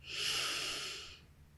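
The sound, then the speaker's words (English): A single slow, deep inhale during a guided meditation, a smooth airy hiss that swells and then fades after about a second, with no voices. “Inhale.”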